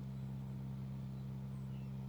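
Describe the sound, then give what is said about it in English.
A motor buzzes along in a steady, low electric hum with a constant tone that neither rises nor falls, alone and unbroken. “Much better. The sound of the motor buzzing along.”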